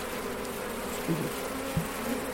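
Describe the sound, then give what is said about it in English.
Honeybees buzzing around an open hive while frames are handled. A steady low drone of many bees runs throughout, with a few brief louder buzzes rising above it and no talk. “But these bees are so nice”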